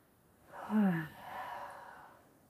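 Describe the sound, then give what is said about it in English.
A slow, deep inhale through the nose during a guided relaxation exercise, soft and airy, swelling over about a second and then easing off gently. “Roll the shoulders back. Take a deep breath in through the nose, into the belly.”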